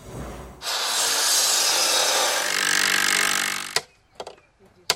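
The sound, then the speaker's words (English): A saw cuts through wood at a busy construction site in one long, steady, rasping stroke, followed by a few sharp knocks and taps. “The sounds of a busy construction site.”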